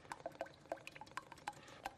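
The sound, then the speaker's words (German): Plenty of cooking oil poured into a deep fryer for frying potato strips into chips: faint glugging liquid with many quick bubbly plops in an irregular rhythm. “Die Kartoffeln in Streifen schneiden und dann Öl in die Fritteuse.”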